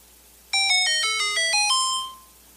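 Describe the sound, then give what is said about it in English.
A video game secret-passage discovery jingle from The Legend of Zelda: a quick run of bright, synthesized chiptune notes that steps up and down in pitch and ends on a held tone that fades out, heard alone. “It's kind of a deep cut, but that's The Legend of Zelda when there's a secret passage, okay? So when Link cuts down, you know, a shrub and there's a, you know, a little stairway down there”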